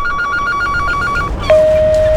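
An unanswered telephone rings in a rapid series of bright, clear pulses that stop abruptly. A long, steady electronic tone follows.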